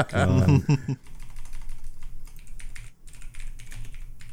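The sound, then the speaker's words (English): Typing on a mechanical keyboard, a rapid run of sharp, clattering key clicks after a brief stretch of voice, continuing steadily with a short pause near the end. “Why the fuck did I buy a mechanical keyboard? That's the real question people should be asking. It's the worst fucking choice.”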